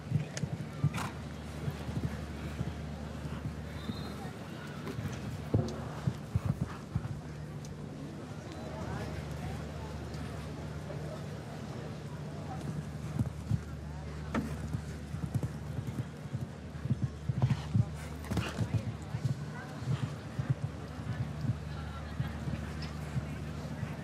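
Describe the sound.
Hoofbeats of a 16-year-old show jumping horse sired by Verdi during a competition round: a steady stream of many muffled clip-clop strikes, with voices heard at times.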